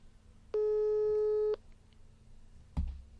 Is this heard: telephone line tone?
yes